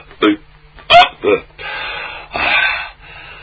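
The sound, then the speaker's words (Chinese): A storyteller's voice imitates hiccups from someone stuffed after overeating: a few short, sharp hiccup sounds followed by longer, drawn-out vocal noises, loud and alone. “这位撑得直打嗝”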